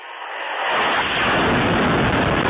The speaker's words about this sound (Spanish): Esto es un ataque en una zona residencial de Kharkov.